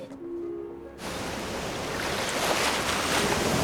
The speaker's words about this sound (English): Early morning, frothy waves lap gently over the craggy rocks that jut out from the shoreline.